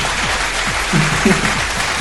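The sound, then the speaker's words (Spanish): Applause for a colleague, called for by a host on a late-night show: a dense, steady patter of clapping that runs through the two seconds, with faint low tones underneath. “un aplauso al Maku, ¿eh?”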